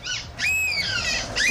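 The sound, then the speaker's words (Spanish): Human voices imitating seagull calls: a few high, shrill, wavering cries in quick succession, each bending up and down in pitch, with no other sound around them. “tenemos los audios de algunas gaviotas. Esos son humanos imitando a gaviotas.”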